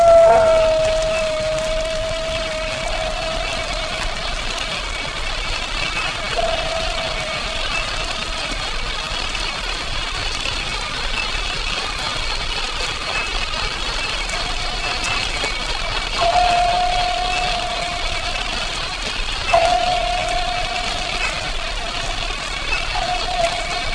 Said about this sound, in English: You will shortly observe that the faint rhythmic beat of the propellers is lost in the noise created by the sub trimming and speeding up its motors.